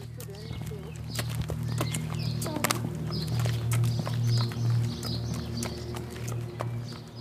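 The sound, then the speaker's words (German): Hooves clip-clop as horses walk laps around an indoor riding arena: many steady, fairly loud hoof falls in an even rhythm, with a low steady hum beneath. “Während Luna und Gonny so noch ein paar Runden durch die Reithalle drehen”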